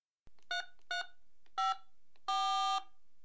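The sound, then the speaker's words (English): Telephone keypad tones sound as a number is dialed: four clear electronic beeps spaced by short pauses, the last held noticeably longer than the others, with no talking. “Let's phone him now.”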